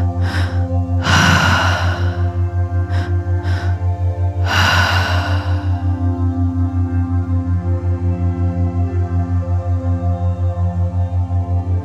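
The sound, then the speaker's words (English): A few audible breaths during a deep breathing exercise, soft airy inhales and exhales in the first few seconds, followed by a long stretch where only a steady low electrical hum remains. “Keep that breath pattern going.”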